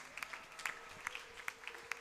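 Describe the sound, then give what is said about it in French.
Faint applause from an audience during a Sunday church worship service, a steady patter of hand claps with sharper individual claps standing out at a fairly even pace. “Est-ce que nous pouvons acclamer les rois des rois? Alléluia. Est-ce que nous pouvons acclamer encore une fois?”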